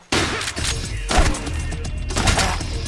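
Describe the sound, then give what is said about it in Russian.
Gunfire in an audio drama as a hunter leaps down and shoots: a loud sudden burst opens a sustained, rough volley with several heavier blasts spread through it. “Соскакивает, стреляет.”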